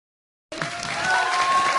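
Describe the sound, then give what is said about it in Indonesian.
Studio audience applause closing an Indonesian evening TV talk show, starting abruptly after a brief silence and swelling into a loud, sustained wash of clapping. “Terima kasih buat semua bintang tamu yang luar biasa malam hari ini. Tepuk tangan.”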